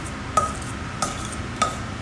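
A red paprika sauce being mixed in a pan gives three soft utensil taps, evenly spaced, over a low, steady background hiss.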